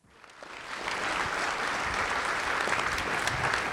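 Audience applause welcoming a guest host in an Apple Store: dense, steady clapping that swells over the first second, then holds evenly to the end with no voices.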